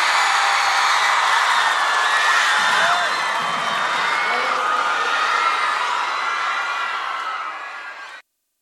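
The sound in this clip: An audience applauds and cheers for a band, a dense sustained roar of clapping mixed with whoops and shouts that holds steady, then fades out near the end.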